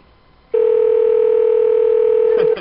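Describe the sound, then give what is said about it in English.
A call to a cell phone ringing out: one long, steady, mid-pitched ring tone begins abruptly after a short quiet and holds evenly for about two seconds before cutting off with a faint click. “Okay, so we'll call her cell phone then. Too late, it's ringing.”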